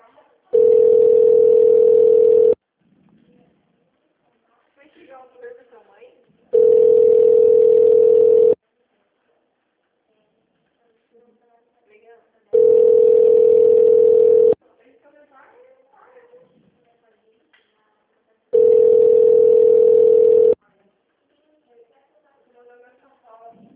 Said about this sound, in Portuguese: Liguei para falar com o atendente. Acho que a prefeitura está fechada.